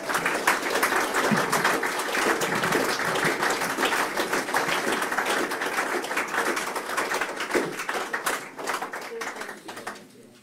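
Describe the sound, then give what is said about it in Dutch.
Steady applause from the audience at a special council meeting, dense clapping that carries on for about ten seconds before tapering off at the end. “En een applausje is op zijn plaats.”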